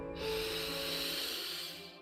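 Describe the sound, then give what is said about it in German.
A deep breath drawn in during a guided meditation, a soft, airy hiss lasting about a second and a half, fairly faint and heard alone without talk. “Lass uns zum Einstieg drei tiefe Atemzüge nehmen. Atme ein,”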